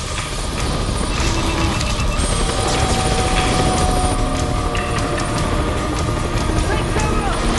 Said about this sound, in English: The chopper spins out of control, plummeting towards the ground like a bird shot from the sky.